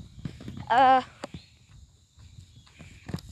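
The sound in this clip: Footsteps walking down, a few soft, uneven thuds, joined briefly by a short tonal sound early on.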